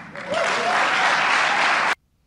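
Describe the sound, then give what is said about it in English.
Applause from a crowd of people: dense, loud, steady clapping that swells in quickly, holds evenly, then cuts off abruptly into silence. “Bunch of seals clapping in the background.”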